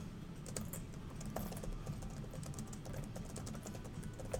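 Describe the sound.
Keyboard typing as something is written down: many quiet, closely spaced key clicks in a steady, continuous patter.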